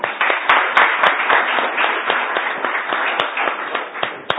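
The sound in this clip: Audience applause welcoming a lecturer at a talk in the Kepler Salon: dense, steady clapping from many hands, sustained and fairly loud throughout with sharper individual claps standing out.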